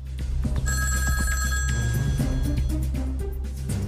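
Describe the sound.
A telephone rings as a listener calls in, a bright trilling ring that sounds for about a second and a half over a low, steady hum, with no talk.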